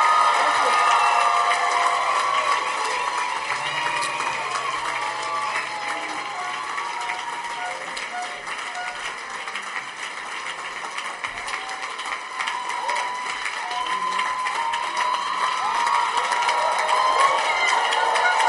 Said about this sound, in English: Go back to clap for them as they go back. Clap for them.